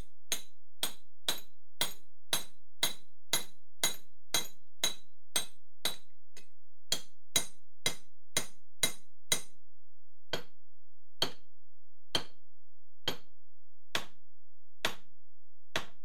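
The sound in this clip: A sledgehammer hits a chest over and over to smash it open, making many sharp, ringing, clinking blows. They come fast and evenly spaced at first, then pause and return more slowly and widely spaced.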